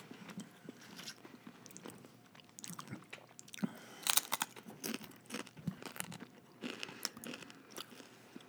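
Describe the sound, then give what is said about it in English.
Crunching bites of a crispy taco shell with steady chewing: many sharp, irregular crackles and crunches, fairly faint and with no talking. “Yeah, I mean, I'm still enjoying this taco shell.”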